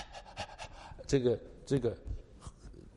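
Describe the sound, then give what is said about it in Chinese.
A human voice imitating a dog panting: a few quick, breathy huffs mixed with spoken voice, fairly quiet overall. “这个英文是 pant。就是你看见有的时候那个动物啊，那个狗啊，”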